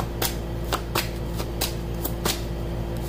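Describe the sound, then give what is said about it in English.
Tarot cards being shuffled and drawn from a deck during a reading: a run of many short, crisp riffling snaps at an uneven rhythm, fairly quiet, with no talking. “with the Six of Cups, which was at the bottom of the deck. May I have another card,”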